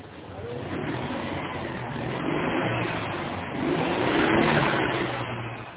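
A car engine starts noisily and pulls away, its steady mid-pitched drone swelling in two surges of loudness.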